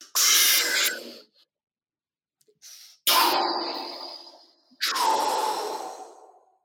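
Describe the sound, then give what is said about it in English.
Deep breaths taken slowly, heard as a few long, loud, breathy rushes of air separated by short pauses, with one brief faint breath between them and no talking. “It would be an honor to do a big deep breath with you.”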